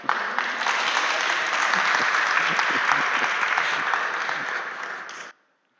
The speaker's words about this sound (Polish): Także gorące brawa dla was.